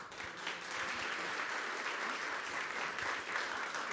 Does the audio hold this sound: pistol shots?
no